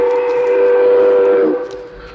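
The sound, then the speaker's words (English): A train stopping sounds a loud, sustained, steady whistle over a low rumble, tapering away near the end, with no voices. “Êtes-vous célèbre à ce point qu'on ait stoppé le train pour vous?”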